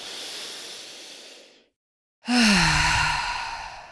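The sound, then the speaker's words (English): A deep breath is drawn in through the nose as a long, soft, steady hiss that gradually fades. After a pause comes a louder sighing exhale with a voiced tone that dips in pitch. “Big deep breath in through your nose with me.”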